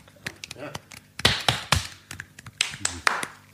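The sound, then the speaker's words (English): People trying to clap with one hand, producing a scattered series of soft, sharp taps and slaps at uneven intervals while voices talk over them. “So a little Actually, section of the podcast there where we all try to do half a clap.”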